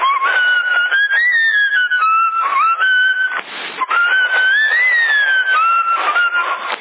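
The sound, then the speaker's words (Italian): A man whistles a wavering, sliding tune over CB radio. The melody is steady and fairly loud, thin and band-limited in tone, and bursts of static noise break through it. “questo signore sta fischiando, chi è?”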